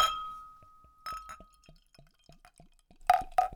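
Glass clinks around a bottle of Rieder Märzen beer being opened. A faint ringing tone fades out, a string of soft light ticks follows, and two sharp, bright glass clinks land close together at the end.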